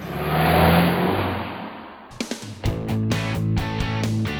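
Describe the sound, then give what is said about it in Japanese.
Car engine revving as a sound effect, a loud rushing roar that swells and fades, followed by a short burst of music. “じゃあ安心安全快適な運転で参ります”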